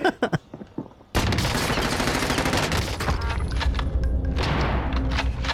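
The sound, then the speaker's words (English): Gunfire from a Call of Duty video game, a sniper rifle among the weapons, opening with a few sharp separate shots before erupting into a dense, sustained barrage of rapid loud firing. “I just got a crazy kill with a sniper rifle at close range.”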